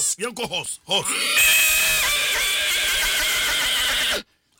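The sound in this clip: A horse neighing: a few quavering, wavering calls in quick succession, followed by a longer, rough, breathy whinny that holds loud for a few seconds before cutting off.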